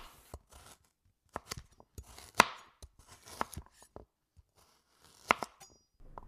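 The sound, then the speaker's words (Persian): Sharp knife strokes cut potatoes into rings on a board while making green bean rice, the slices meant for a crispy rice crust. Many crisp chopping taps arrive in an uneven rhythm, a few standing out louder, with no talk. “تو این فاصله میام سیب زمینی ها رو حلقه حلقه میکنم یه ذره مزه دارش میکنم”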